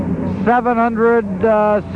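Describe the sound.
Racing hydroplane boats roar around the course with a steady engine drone, heard under a commentator who talks throughout.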